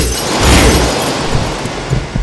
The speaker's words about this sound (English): forms a laser weapon and fires on the tanks, breaking them open.